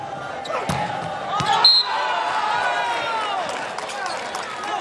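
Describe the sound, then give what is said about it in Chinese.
A volleyball serve by Lucarelli during a Brazil versus China match: a few sharp ball impacts over a steady crowd murmur, with voices talking throughout. “卢卡雷利来发球”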